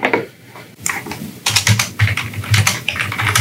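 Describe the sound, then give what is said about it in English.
Rapid typing on a computer keyboard, irregular clattering keystrokes that grow busier and louder partway through. “We frantically type into our Googles.”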